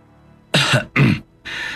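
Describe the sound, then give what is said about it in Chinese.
Coughing, a few short harsh bursts in quick succession, fairly loud and alone with no talk. “唐龙看看刘东旭，看看范英明，咳了一声。”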